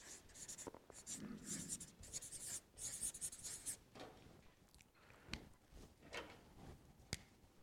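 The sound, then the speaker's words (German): A pen writing on paper: continuous quiet scratching strokes in uneven bursts, broken by a few sharper taps and clicks near the end. “Und ich schreibe hier oben das Format des Schreibens.”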